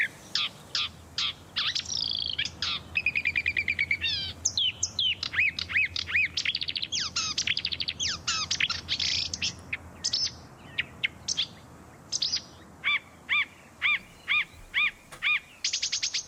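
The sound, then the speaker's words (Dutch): A marsh warbler sings, mimicking other bird species: a long, rapid stream of varied high chirps, whistles, trills and harsher notes in quick bursts, changing constantly and heard alone throughout. “Je hoorde de winnaar van de serie Imiterende Vogels. En dat is dan de bosliedzanger geworden.”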